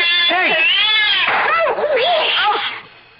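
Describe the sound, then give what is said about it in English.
A cat yowling in loud, drawn-out, wavering wails that rise and fall in pitch, then fade at the end. “Keep that cat away from us.”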